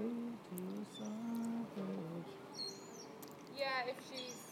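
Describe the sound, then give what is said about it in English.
An oddly pitched seagull calls at the seaside with a few high, bright chirping cries near the end, following a stretch of people talking quietly. “That's a funny sounding seagull.”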